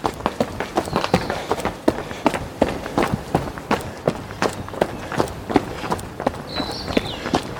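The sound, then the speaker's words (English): Footsteps of a runner slowing to a walk during a break on a downhill route, many even, regular steps at a steady pace and moderate loudness. “We can do a little walk break here.”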